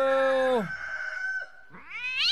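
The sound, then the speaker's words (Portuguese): Cats fight with harsh caterwauling: a loud, drawn-out yowl slides down in pitch, then after a brief quieter stretch a second strained yowl rises sharply upward. “Ó o gato já... Ó o gato tá brigando.”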